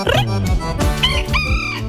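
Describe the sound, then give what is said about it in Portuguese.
A rooster crows loudly in a few drawn-out, wavering calls in quick succession, heard alone with no talk. “Galo vai cantando”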